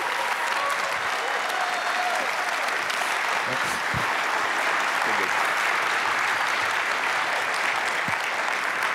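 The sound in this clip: A church audience applauds a preacher coming onto the stage, a dense, steady wash of clapping that holds at an even level throughout.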